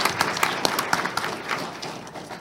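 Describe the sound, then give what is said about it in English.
Audience applause thanking counsel at a visiting legal event with students, a dense burst of clapping with sharp individual claps that gradually tapers off over about two seconds. “Before we do that, though, please, I would ask everyone to join me in thanking counsel for coming on the road with us.”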